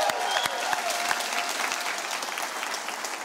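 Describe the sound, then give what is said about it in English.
A church audience applauds in a steady, dense wash of clapping, fairly quiet and unbroken for the whole clip, with sharper individual claps standing out now and then. “Can we make some noise for Jesus one more time? Come on.”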